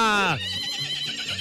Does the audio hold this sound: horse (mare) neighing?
yes